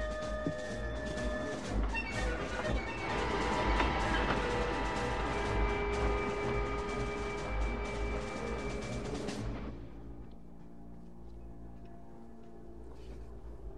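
A train runs on rails with a steady, dense rumble and sustained whining tones. Near the end the sound drops abruptly to a quieter low hum.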